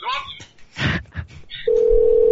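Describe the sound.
Telephone ringing tone: a steady, unbroken mid-pitched electronic tone that begins after a short stretch of talk and holds at one pitch to the end.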